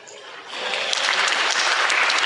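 Audience applause at a technology presentation about Silverlight 2, starting softer and swelling after a moment into steady, sustained clapping from many people.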